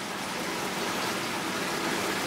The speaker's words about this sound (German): Und wenn ich dann Salzwasser aufdrehe, dann geht eine Pumpe an und es läuft dann direkt hier aus dem Schlauch. Also bei uns kommt das Meer direkt aus dem Schlauch.